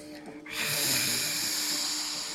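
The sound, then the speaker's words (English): Forceful breathing from a dragon's breath yoga exercise done in lizard pose with the tongue stretched toward the chin: a quiet opening breath, then a loud, sustained, rushing breathy exhale that holds steady for about two seconds. “Let's take some rounds of dragon's breath here in our lizard pose. So take a full breath in.”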